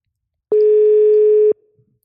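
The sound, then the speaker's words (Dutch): A single steady telephone ringback tone lasts about one second, loud and alone, while a call is being placed, and a faint brief rustle follows it. “Dus oh ik heb heel zin om Wouter even te bellen.”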